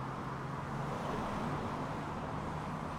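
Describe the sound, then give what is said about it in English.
Truck passing in street traffic, heard as a continuous low roadway roar and engine rumble that stays fairly level throughout the few seconds. “It's been a while since I stood here because that traffic is coming directly at me. See that truck just going, right at me.”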